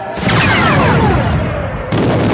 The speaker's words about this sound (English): He gained a little altitude, putting his blade halfway between floor and ceiling, then targeted the bunker and let fly with a missile.